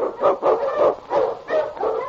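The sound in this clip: Husky sled dog barking on a snowy trail: a quick run of deep, rhythmic barks, about one every third of a second, loud and unbroken by talk.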